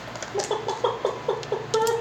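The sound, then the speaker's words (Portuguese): A chicken clucks in a quick, uneven series of short, nasal calls at moderate loudness, with no one talking over it. “Olha a galinha.”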